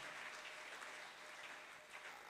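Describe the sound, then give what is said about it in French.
A church audience claps for the Lord in a faint, even wash of applause that holds steady from start to end. “Est-ce qu'on peut acclamer pour le Seigneur? Tunaweza kupiga makofi kwa ajili ya Bwana.”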